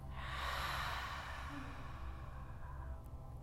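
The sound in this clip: A deep inhale at the close of a guided breathing session: one long, breathy rush of air fills the whole clip, strongest early and easing slightly, over a faint low hum, with no talking.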